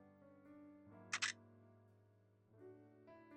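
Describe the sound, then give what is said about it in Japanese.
A camera shutter fires as a photo is taken, a sharp double click in quick succession. It stands out briefly over soft, sustained background music. “貸して。君のこと、撮ってあげる。”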